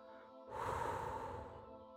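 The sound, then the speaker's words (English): Breath is blown out steadily onto a toy windmill, a soft, breathy rush of air that starts after a brief quiet moment and holds for about a second and a half with a faint steady hum beneath. “Bring your windmill to your mouth. Slowly open your mouth and blow.”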